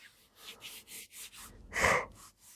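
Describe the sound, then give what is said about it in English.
A person yawning: a run of soft, rhythmic breathy puffs builds into one louder, drawn-out gasping breath, followed by a few quieter breaths. “excuse me, ladies and gentlemen, for the yawning.”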